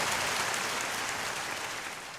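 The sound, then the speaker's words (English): Applause from a crowd, a dense, steady wash of clapping that holds at an even loudness throughout and eases slightly at the end. “Maybe some applause. That'd be good.”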